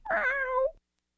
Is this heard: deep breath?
no